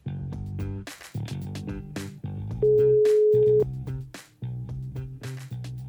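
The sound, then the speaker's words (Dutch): Telephone ringing tone heard while calling someone: a single steady beep lasting about a second, standing out clearly from the other tones around it. “Bellen met Maarten, het orakel uit Vazen.”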